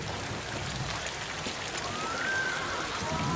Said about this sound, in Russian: Льет ливень.